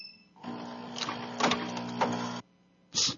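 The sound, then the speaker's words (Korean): A coffee vending machine dispenses coffee with a steady mechanical hum that swells in a few louder surges for about two seconds, then cuts off, followed by one short hissing burst. No voices. “자판기 커피 이런 거 같은데? 커피 머신 소리.”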